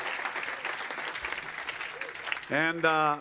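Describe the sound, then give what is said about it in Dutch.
Crowd applause for the band at a morning church gathering with pastors present, a steady, dense clapping for about two and a half seconds before a voice begins speaking over the fading claps. “Give all these guys a big hand. Geef de band een groot applaus.”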